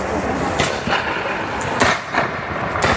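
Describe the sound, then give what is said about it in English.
Musket fire in a reenactment of the opening battle of the American Revolution, with British troops firing and colonists returning fire. A handful of sharp, unevenly spaced cracks ring out over a constant wash of noise. “The British open fire. And the colonists, you see it there, are ordered to return fire. And that order, those are the first shots of the revolution.”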